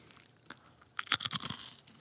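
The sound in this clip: Biting into and crunching a potato chip: a few faint clicks, then a dense run of crisp, crackling crunches lasting under a second, with no talking.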